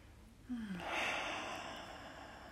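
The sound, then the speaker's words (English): A slow, deep breath taken during yoga practice, heard as a soft, airy rush of breathing that swells and then slowly trails off. It is faint and steady, with no talking. “One last round of breath right here.”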